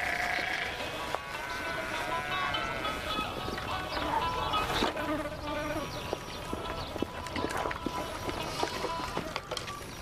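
Sheep bleat in a sheep pen over a dense, continuous noisy background, with buzzing insects and scattered knocks mixed in throughout.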